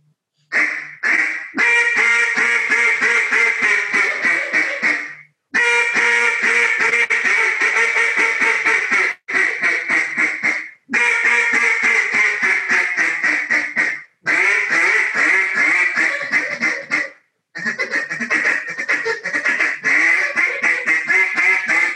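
Duck call blown in a chit-chat pattern: rapid strings of short, raspy quacks in several loud bursts, each separated by a brief pause, with no talking over them.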